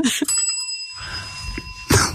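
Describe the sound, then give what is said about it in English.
A bell is rung once before a quiz question, giving a bright, clear metallic ring that sustains steadily for over a second before cutting off. “I never do the pregnant pause with the bell.”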